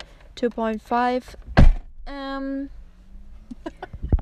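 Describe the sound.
A man falls over with his chair, producing one heavy bang among other short creaking and scraping sounds.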